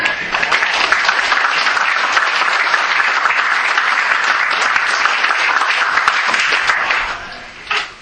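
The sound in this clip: An audience at a meeting claps to welcome the evening's speaker. The applause is loud and sustained for about seven seconds, then fades quickly, with a brief final patter of claps.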